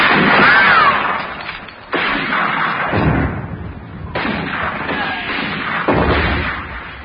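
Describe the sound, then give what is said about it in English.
Gunfire opening a battle in a radio drama: several heavy, booming blasts at intervals, each with a loud onset trailing into a long rumbling decay. “The battle's about to begin. We can't see you now. Fire!”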